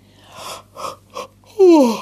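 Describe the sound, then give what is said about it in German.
A tired woman's yawn at bedtime: a few short breathy puffs, then a louder drawn-out voiced sigh whose pitch slides downward to close. “Frau Usebuse gähnt wieder, denn sie ist müde, sehr müde.”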